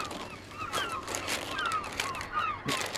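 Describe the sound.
Seagulls calling while being fed bread, with many shrill, squawking cries overlapping at irregular intervals over a steady background hiss.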